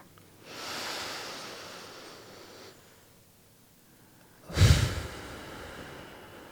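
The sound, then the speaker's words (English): A deep breath taken together during a guided relaxation moment: a long, soft, airy inhale followed after a pause by a short, louder gust of breath. “let's take that moment right now to all take a very deep, healing, nourishing breath together.”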